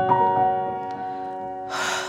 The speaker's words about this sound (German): Noch einmal einen tiefen Atemzug, ganz tief.